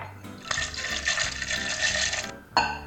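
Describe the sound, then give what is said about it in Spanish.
Liquid pouring from a glass holding water and rice, a steady rushing flow for about two seconds that stops abruptly, followed by a short splashing burst. “Por ejemplo, yo tengo un vaso con agua y arroz.”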